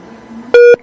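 A call-waiting beep on a phone line: one short, loud, steady electronic tone that cuts in sharply and stops, after a faint low hum.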